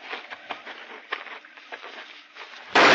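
A single sudden, loud gunshot from a game hunt bursts out near the end, following quiet rustling and faint movement.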